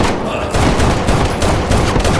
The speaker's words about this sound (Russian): Сайкс стреляет в человека Фрэнкса, выбегающего из-за угла.